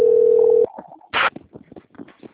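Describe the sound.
Steady telephone dial tone as a call is being placed, a loud, even, continuous hum lasting over half a second before cutting off, followed by a short noise burst and a few faint scattered sounds.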